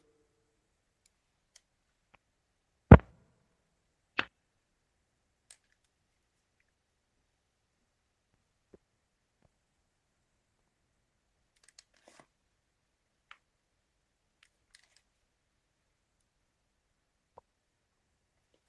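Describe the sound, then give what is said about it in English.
Headphones are put on with small plastic handling clicks: one sharp snap, a softer click about a second later, then a few faint ticks scattered through near silence. “All right, hold on. I'm putting the headphones on right now.”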